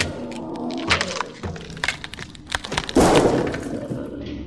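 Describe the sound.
A lamp smashed in a video game: a busy run of clicks and knocks leads into a loud crash of breaking glass, which ends in a brief high tinkle.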